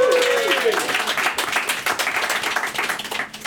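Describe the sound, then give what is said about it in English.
Audience applause at a stand-up comedy show, thick clapping with many sharp hand strikes that stays fairly loud and eases slightly toward the end; a short voice sounds at the very start. “another round of applause, please, for the lovely Miss.”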